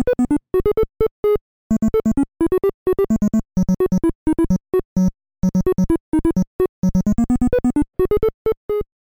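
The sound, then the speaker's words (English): The main theme of the first Bomberman game on the NES plays as perky chiptune music, bright square-wave bleeps in quick staccato bursts of notes with short gaps, loud and alone. “Now, regarding the main theme of the Bomberman games, that catchy tune was established in the very first game. It's a perky little earworm that's quick to get stuck in your head. Here's what that sounded like.”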